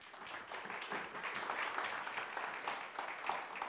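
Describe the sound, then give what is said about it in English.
An audience in church applauds together, steady dense clapping that holds an even level throughout with no voices above it. “Now let's give Him a hand.”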